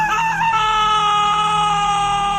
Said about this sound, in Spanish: Un grito partió el aire nocturno,